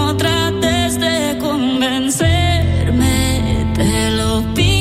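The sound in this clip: A newly released pop song from a long-awaited album plays on the radio, loud and steady, with sustained melodic lines over dense full-band backing that shifts to a heavier, fuller arrangement about halfway through; no one talks over it.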